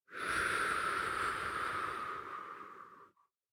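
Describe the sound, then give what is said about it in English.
A slow, deep breath during a guided prayer exercise comes as a single long, soft, airy rush. It holds steady for about three seconds and then tapers away into silence. “Breathe in. And breathe out.”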